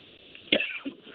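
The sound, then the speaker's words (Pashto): A single short cough, a sharp burst that fades quickly against a faint background. “او بخښي تاسو که ټوخی کیږي”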